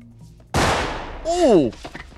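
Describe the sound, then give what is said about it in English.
A gunshot in a TV show scene: a single loud, sharp blast with a short decaying tail, followed by a brief vocal cry that falls in pitch. “Oh, he's and luckily he's wearing a bulletproof vest in high school. Barringer gets shot. But like he's not bleeding.”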